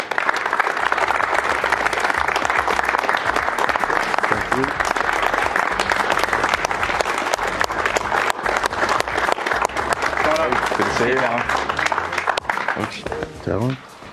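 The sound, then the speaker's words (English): Crowd applause welcomes BYU football wide receiver Talon Shumway, a broad, continuous wash of clapping that stays loud and steady throughout, with voices becoming audible briefly near the end. “Please welcome in wide receiver Talon Shumway.”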